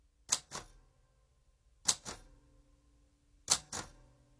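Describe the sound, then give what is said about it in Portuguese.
A typewriter is typed slowly, one letter at a time: six faint, crisp key strikes arrive in three evenly spaced pairs, with quiet pauses between them. “O rapaz que bate à máquina, uma letra de cada vez, é empregado de mesa.”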